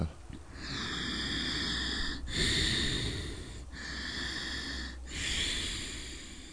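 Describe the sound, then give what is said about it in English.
Deep Ujjayi yoga breathing: a soft, steady, rushing throat-constricted breath in long alternating inhales and exhales, heard alone without talk. “The Darth Vader breath or the Ujjayi breath.”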